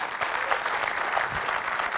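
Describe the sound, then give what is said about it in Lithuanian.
Steady audience applause greeting a guest, a Lithuanian pop-stage legend, as he is welcomed onstage: dense, even clapping sustained through two seconds. “norėčiau plojimais pasitikti Lietuvos estrados legendą Gidijus Ipavičių.”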